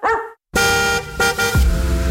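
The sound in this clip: A dog's bark is heard in a pet-food advertisement: a short, loud woof, a brief silence, then long, steady tonal blasts.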